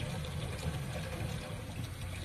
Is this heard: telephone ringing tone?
no